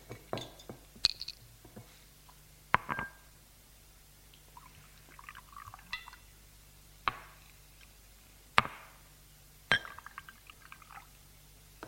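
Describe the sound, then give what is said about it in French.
A bottle and glasses are set down on a table. Several sharp glassy clinks and knocks sound at irregular intervals, with faint shuffling between them. It is quiet overall, with no talk. “Elle leur apporte la bouteille et les verres et les dépose sur la table”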